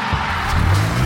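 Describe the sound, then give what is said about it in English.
A vehicle rolls in with a low engine rumble and tire noise that swells slightly toward the end, loud and steady for about a second with no voices. “That's the sound of the CJWE Cruiser rolling in, powered by ATB Financial.”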